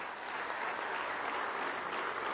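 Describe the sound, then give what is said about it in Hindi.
Audience applause at an award ceremony honouring a naval officer: steady, continuous clapping, fairly faint and muffled. “एक बार जोरदार तालियां.”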